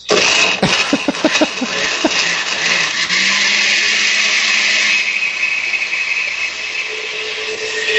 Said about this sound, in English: Work that Oster fake Vitamix. Do you really think we can't tell the difference between a Vitamix and an Oster sound?